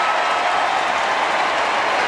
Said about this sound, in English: Nice ovation for Matthew Nix, it must be said. Shown on the big screen, and the applause has gone around the ground. The cheers are up.